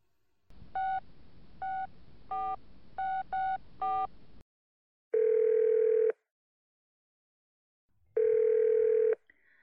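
Telephone tones during a call: six short touch-tone beeps in an uneven rhythm, then two long, steady ringing tones separated by silence.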